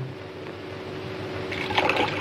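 Water is poured into a drink already mixed with lemon, a low liquid trickle that swells into a brighter splashing pour near the end, moderately quiet with no talk.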